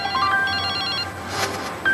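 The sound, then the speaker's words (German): A telephone rings with an electronic ringtone: a burst of short, high, melodic beeps, a brief gap, then the beeping starts again. “Aber jetzt kommt da dieser Anruf von Wolfgang Niersbach”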